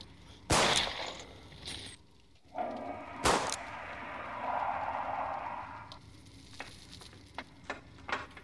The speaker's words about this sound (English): Same as before, aim and shoot, aim and shoot. I centered on him and shot him.